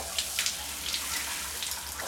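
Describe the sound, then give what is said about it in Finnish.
Shower water runs in a hotel bathroom, a quiet, steady hiss of spray with faint splashes and no other sounds. “Hotellin suihkussa mä annan veden valua iholla”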